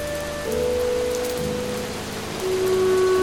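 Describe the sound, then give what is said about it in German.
Rain pattering down steadily on a surface, a dense, even hiss of drops that holds at a constant moderate loudness throughout, with no voices. “Regen prasselte auf uns herab.”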